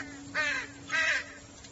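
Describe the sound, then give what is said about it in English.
Two raspy caws from a crow sitting in a tree, moderately loud and spaced apart, over a faint steady hum. “Is your spirit in the crow sitting on the tree over there?”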